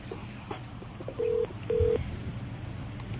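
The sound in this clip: A telephone call being connected: two short, steady ringing-tone pulses follow one another with a brief gap, over faint line hiss and a low hum.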